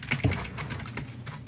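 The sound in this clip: Fast typing on a computer keyboard: many rapid, uneven clacking keystrokes in a continuous run, with no talking.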